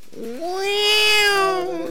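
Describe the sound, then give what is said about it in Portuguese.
A cat lets out one long, loud yowling meow after its tail is stepped on. The cry rises at the start, holds a strained pitch, then trails off. “Ué, ó o gato. Você pisou no rabo do gato”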